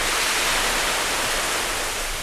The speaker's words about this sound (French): Je préfère ce fond sonore avec les vagues plutôt que le cri un peu sauvage des bêtes sauvages qui sont dans la jungle.